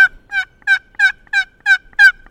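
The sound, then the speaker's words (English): Raspy yelps from a wooden box turkey call, a small cigar-box-shaped call worked by hand to imitate a gobbler during a hunt in the woods. The yelps come as a steady series of evenly spaced, fairly loud squawking notes, with no talk. “has a half dozen instruments in his camo pack meant to attract a big gobbler in the woods of Lincoln County. One is a wooden paddle and what looks like a mini cigar box.”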